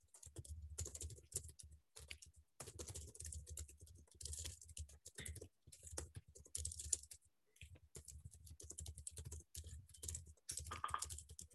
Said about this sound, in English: I think right after I type up a comment.